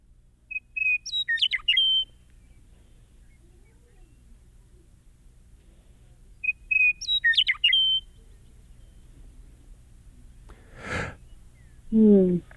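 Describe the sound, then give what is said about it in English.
Western meadowlark song from prairie habitat: two bright, fluting whistled phrases separated by a pause, each a quick run of clear, warbling notes, followed near the end by a short breathy sound and a brief voice. “We have a recording of a western meadowlark right now.”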